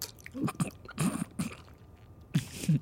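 A hard, dry fish stick is bitten and chewed with several crunchy, brittle bursts in uneven clusters and short pauses between them.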